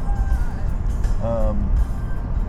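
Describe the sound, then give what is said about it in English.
A car drives along a road, its low engine and tyre rumble steady and loud throughout, under a man talking. “So I'm sorry if you're not enjoying the driving portions, but this is what we're going to be doing today. We're just basically driving, and I'm going to be driving like a maniac”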